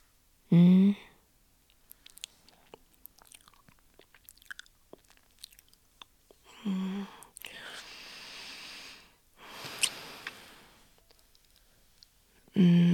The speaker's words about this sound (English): You're absolutely delicious. You are exactly how a gingerbread cookie should taste.